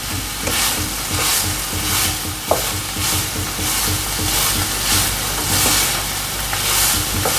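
Food sizzles and spits in a pan over the heat, a constant bright hiss broken by regular soft bursts of stirring, with no talk.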